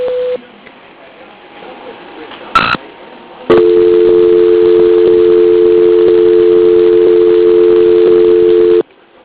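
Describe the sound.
A voicemail answering machine tone: after a short beep and a brief burst, a loud, steady pure tone holds for about five seconds before cutting off abruptly.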